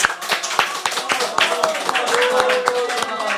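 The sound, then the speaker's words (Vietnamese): A round of applause marks International Women's Day at a gathering. Scattered, sharp, irregular claps ring out briefly amid voices, rather than a dense ovation. “Một tràng hoa tay thật lớn.”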